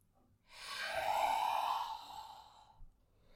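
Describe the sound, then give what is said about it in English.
A single long Shitkari cooling breath drawn in through the mouth with the tongue resting on the lower teeth: a soft, airy hiss that swells, holds for about two seconds, then fades out. “That's Shitali, and Shitkari is the same thing, inhaling through the mouth, but the tip of your tongue rests on your lower teeth.”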